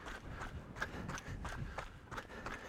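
Faint footsteps run at night over gravel covered in snow, a steady, even rhythm of many soft crunching strides throughout.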